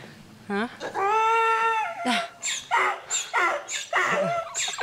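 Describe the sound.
A dog guarding its territory near an enclosure gives a long, high whining whimper, then a run of many sharp, loud barks in uneven bursts.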